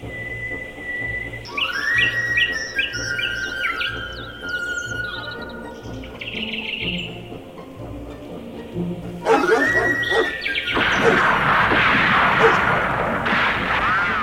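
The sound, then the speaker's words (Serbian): Hunters' gunfire at the start of a duck hunt, a dense stretch of rough, noisy bursts filling the latter half, preceded by high whistling and chirping tones. “Šta se to čuje? Lovci mališa. Počeo je lov. Lov? Kakav lov? Lov na divljač. A danas izgleda lovimo patke.”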